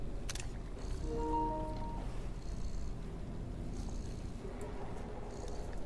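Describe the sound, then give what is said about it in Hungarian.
A video game cat purrs in a steady, low, continuous rumble that holds without a break across the whole stretch. “mint amikor a macska rendesen dorombol a kezemben. Hát őrület. Hol tart már a tudomány? Olyan szépen alszik, ne ébresszük fel, nem?”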